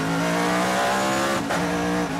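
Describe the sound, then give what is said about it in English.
Engine roar from Corvettes, Mustangs and Camaros driving around the Laguna Seca race track. It is a loud, continuous harmonic drone with a brief dip and recovery in pitch midway, then it carries on steadily. “It's probably some Corvettes, a couple of Mustangs, some Camaros in there. They'll bring it around.”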